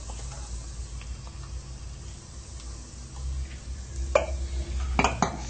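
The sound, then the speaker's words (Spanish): A spoon stirring onions and garlic with chili powder in a pan, mostly quiet over a low hum, then a few sharp scrapes and clatters near the end. “Lo vamos a dejar por acá y lo vamos a revolver.”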